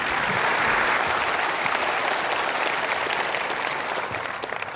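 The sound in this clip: An audience at Bob Jones University applauds to welcome a guest speaker, with a full, steady wash of clapping that holds evenly and eases slightly at the end.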